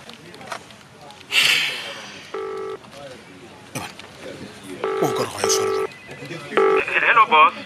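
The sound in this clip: A telephone being dialed, four steady keypad tone beeps at uneven intervals, separated by rustling, breathy noises and a few short electronic chirps.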